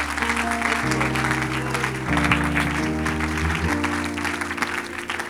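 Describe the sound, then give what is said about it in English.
A church audience applauds to welcome guest evangelists: a steady wash of clapping runs throughout over sustained musical chords that shift a few times. “Put your hands together and welcome Brother and Sister Fedrick.”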